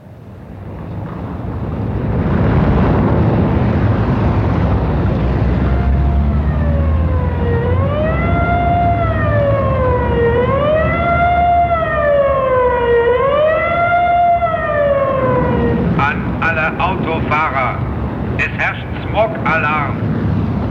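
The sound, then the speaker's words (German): A loud smog-alarm siren sounds over an industrial zone. Its wailing tone rises and falls in repeated slow cycles over a low rumble, then gives way to rapid pulsed tones. “Stoppen Sie die Motoren. Ich wiederhole. Es herrscht Smog-Alarm.”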